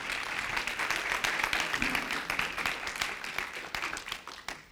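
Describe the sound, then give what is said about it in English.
Audience applause welcoming a couple onto the stage during a church service: dense, steady clapping that fills the whole stretch at an even level with no voices over it. “Give them a hand.”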